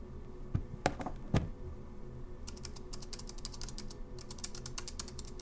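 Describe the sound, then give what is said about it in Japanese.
Typing on a laptop keyboard: a few sharp, louder knocks at first, then a quick, steady run of light key clicks, with no voices. “え？おじさん？ノートパソコンを開くなんて、まだお仕事があるの？”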